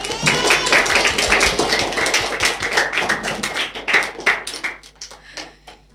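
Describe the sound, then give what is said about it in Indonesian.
An audience claps for schoolchildren after a pantun (rhyming verse) performance at a radio-station children's talent event. The clapping is brisk and dense, then thins and fades toward the end. “Luar biasa, keren sekali pantunnya. Tepuk tangan sekali lagi untuk teman-teman kita.”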